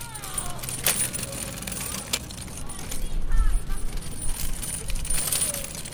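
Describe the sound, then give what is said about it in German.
A kick scooter is ridden, its wheels giving a steady rolling rumble broken by a few sharp clicks and light rattles, with a louder rumbling stretch in the middle. “Ein Cityroller, genau, das war's.”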